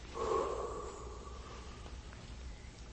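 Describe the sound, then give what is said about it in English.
A voice imitates breath being blown into someone, a short breathy puff at the start that trails off into a faint, hissy exhale. “I will breathe into him, and then he shall rise. And so the Father went,”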